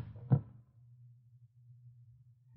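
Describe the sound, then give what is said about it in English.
A single dull thud as a gun is thrown onto a table, followed by a low, steady hum. “I can snap your neck with my bare hands. No, I don't need this gun. I'll throw it on the table.”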